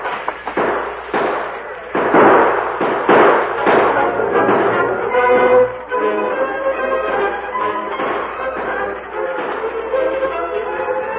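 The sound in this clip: Gunfire in a Western shootout as men open fire on a masked man at a window: several loud, sharp cracks come in quick bursts over a dense, continuous background.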